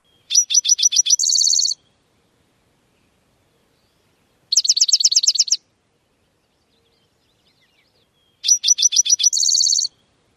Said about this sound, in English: Well, that, of course, was a spotted towhee. Sort of its buzzy, trilly kind of song.